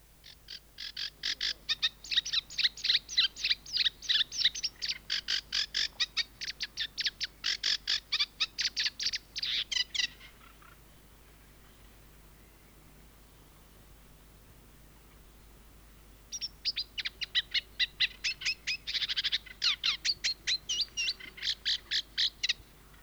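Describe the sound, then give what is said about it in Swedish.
Eurasian reed warbler song: a rhythmic, chattering run of rapid repeated high notes in two long bouts separated by a pause of several seconds, with a faint low hum beneath. “Det var kärrsångare, nu följer rörsångare.”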